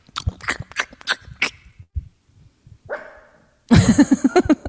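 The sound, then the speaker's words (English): A dog barking, starting with a series of about five sharp, separate barks, then a short squeak after a pause, and ending in a louder, rapid flurry of barks and yips. “Go get the dog. Let me see the dog. Who barked?”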